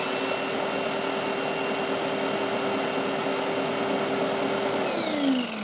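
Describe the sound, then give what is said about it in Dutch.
A saw runs as someone saws, giving a steady high machine whine at a constant pitch that winds down with a falling pitch near the end. “Zij zaagt toch lang.”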